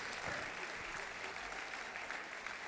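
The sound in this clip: Faint audience applause for a band at a live show, a soft, continuous wash of many hands clapping at a steady level from start to finish.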